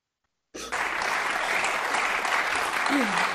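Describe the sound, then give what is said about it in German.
Audience applause breaks out suddenly after a moment of silence and carries on as dense, loud, steady clapping to the end, with a voice briefly audible near the close. “Alle klatschen.”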